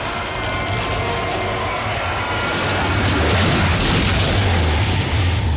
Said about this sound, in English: Riddle disappears in a huge exploding ball of light, sending thousands of tiny sparks into the air